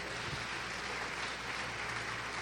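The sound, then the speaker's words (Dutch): Applause from a church audience right after a spoken prayer: dense, steady clapping that holds at an even level for the whole clip, with no talk over it. “Kom, maar geef de Heer een applaus.”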